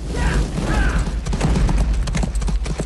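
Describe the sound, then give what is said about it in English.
Galloping horse hooves as a rider moves between burning straw-roofed huts in a village, a steady, dense clatter of hoofbeats over a continuous low rumble throughout. “He rides to another hut and lights the roof on fire.”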